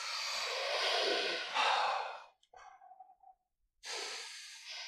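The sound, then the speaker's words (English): Deep breaths are taken slowly: a long, airy inhalation of about two seconds, then a short breathy exhalation with a slight voiced edge, a pause, and another deep breath beginning. “Why don't we all just take a few deep breaths?”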